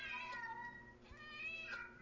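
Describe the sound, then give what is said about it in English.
An angry cat meows in a few drawn-out, wavering yowls with shifting pitch, fairly faint and continuous. “This cat's pissed off. This cat is mad.”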